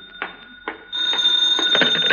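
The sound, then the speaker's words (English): A telephone rings loudly in a home, a sustained shrill ringing tone with rapid pulsing bursts, preceded by a couple of short taps. “Now the phone.”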